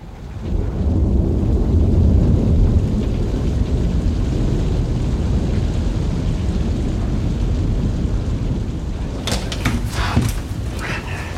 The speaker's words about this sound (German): Gleich gibt's ein Gewitter.